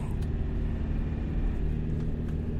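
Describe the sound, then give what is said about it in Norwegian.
A car driving toward the Swedish border gives a steady, even, low engine and road rumble throughout, with no voices or distinct events. “Nå skal vi 2 timer kjøring, retning svenske grensa.”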